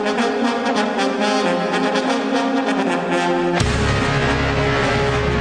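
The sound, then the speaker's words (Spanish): Theme music for a Major League Baseball segment on a Spanish-language radio show: sustained, tonal layers that shift abruptly about two-thirds through into a louder, bass-heavy section. “Muy bien, Chinito, por favor, la musiquita del béisbol de las Grandes Ligas.”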